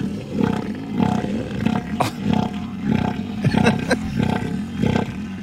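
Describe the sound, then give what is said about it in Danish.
An elephant seal calls with loud, throaty, pulsed bellows, each a rapid rattling burst of low grunts, repeated in a steady rhythm about once a second with no talking over it. “Altså, skal vi lige prøve at høre, hvordan lyder sådan en søelefant?”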